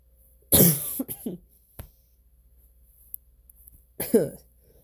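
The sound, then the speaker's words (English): Harsh coughing from a person with a cold or allergies: a loud cluster of a few coughs, a smaller catch, then a long quiet gap before one more strong cough. “I really need to get over this cold. This is allergies or whatever it is. Before I just have one episode where it's just me coughing for an hour.”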